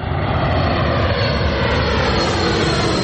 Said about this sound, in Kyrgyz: Мына өзүңөр көрүп турасыңар, шаардын ортосуна жайгашып, шаардын үстүнөн учуп өтөт самолетчу.